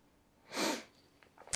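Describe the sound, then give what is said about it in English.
A single sneeze bursts out as a short, loud, breathy blast that swells and fades within about a third of a second, followed by a few faint small noises. “Oh, bless you.”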